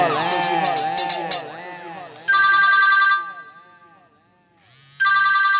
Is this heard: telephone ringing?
yes